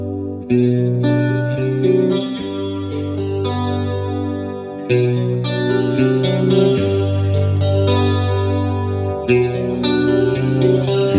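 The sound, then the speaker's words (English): An electric guitar played through a chorus effect pedal sounds a series of sustained chords with a rich, shimmering, slightly wavering tone, heard alone. “Here's a chorus coming from the pedal. I'm going to play this back for you here. Not sure what it's applied to. Oh, yeah, guitar.”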